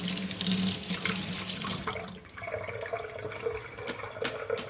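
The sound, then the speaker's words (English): Scallions being rinsed under a running kitchen tap, a steady stream of water splashing and gurgling into a sink, its tone shifting about halfway through. “So I've got some scallions here and I'm just going to give them a bit of a rinse.”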